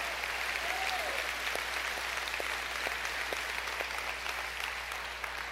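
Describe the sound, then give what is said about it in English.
A church audience applauds to welcome one another to a service held across several rooms and campuses. The clapping is a dense, steady wash that runs through the whole clip without clear breaks. “All the rooms, all the campuses, let's put our hands together and welcome each other to church.”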